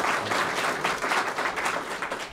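Recorded applause soundtrack of a clapping crowd, dense and steady, loud and continuous throughout with no break.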